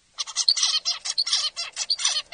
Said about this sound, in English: I will play for you a normal song from a zebrafinch recorded on July 25th at 1:54 in the afternoon.